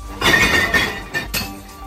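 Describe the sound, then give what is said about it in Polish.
Glass bottles and jars clink and rattle as they are handed in at a large glass collection drive in Poland: a few bright, jangling bursts of glass striking glass, fairly loud, with brief gaps between them. “W Hajnówce, Puławach i Ostródzie zorganizowano wielką zbiórkę szkła. W Hajnówce rekordziści przynieśli po kilkaset butelek i słoików”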